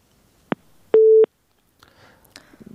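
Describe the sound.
A telephone line signal as a radio host places a call: a single click, then one short, steady electronic beep set off by clicks, followed by faint scattered noise.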